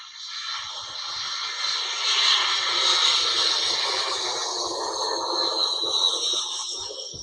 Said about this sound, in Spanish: Esto es un avión. Iba muy cerca de nosotros.